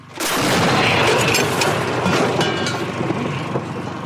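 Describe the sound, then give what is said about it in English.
A 50-year-old Soviet D-20 artillery gun fires in eastern Ukraine. One sudden, heavy boom is followed by a long, loud rumble that fades slowly. “In the east, Ukrainian forces are holding the line, still mostly relying on old Soviet weaponry, like this 50-year-old D-20 artillery gun.”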